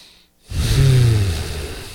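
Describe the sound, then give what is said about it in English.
A group of people breathing in and exhaling together: one long, loud, breathy rush of air carrying a low voiced tone, sustained for over a second. “And let's just take a breath together right now, all of us. And for fun, we'll do two more.”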